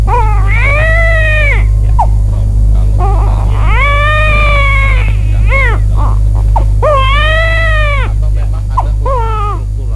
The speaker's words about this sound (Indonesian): Tuh, si kecil menangis lagi.